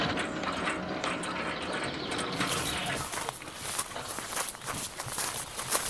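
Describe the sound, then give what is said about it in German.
A gate opening in front of a large house, a steady mechanical whirring with ratcheting gear clicks, then a stretch of irregular clicks and knocks. “Ah, das Tor geht auf.”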